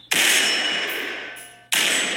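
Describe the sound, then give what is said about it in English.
Two sharp, loud rifle shots from an AR-style semi-automatic rifle on the Los Angeles Police Department gun range. Each blast has a sudden attack and a long, ringing decay. “The Los Angeles Police Department demonstrates an AR-style semi-automatic rifle for us on the department's gun range.”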